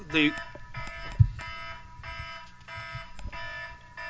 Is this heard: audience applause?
no